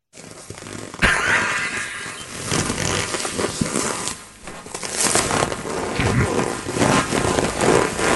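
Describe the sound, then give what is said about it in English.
Leather squeaks and rubs as a body shifts position on a leather couch, a continuous scratchy creaking and rustling that grows louder about a second in and carries on with small surges, with no voices. “Right. That's the sound. So the shifting in position. Anybody that's ever been on a leather couch, you know that sound and that feeling.”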